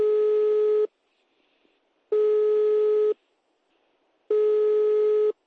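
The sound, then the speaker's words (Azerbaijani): An unanswered telephone call to a number in Russia's Kaliningrad region gives a repeated steady electronic tone. Three even bursts of about a second each are separated by longer silences, with no voices. “Mən də Bakıya qayıdandan sonra həmin nömrəyə zəng vururam. Ancaq hələ ki, həmin nömrədən mənə də cavab verən yoxdur.”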